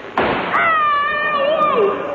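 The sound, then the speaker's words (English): A single sharp gunshot is fired into a mattress, a sudden loud bang near the start, followed by a man talking. “I had shot him in his mattress.”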